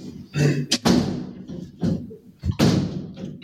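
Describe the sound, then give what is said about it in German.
Windows in an old room being shut loudly: a few sharp bangs and thuds with muffled rattling between them. “Also an der Lautstärke, wie du die Fenster zugemacht hast, merkt man, dass es ein älteres Zimmer ist.”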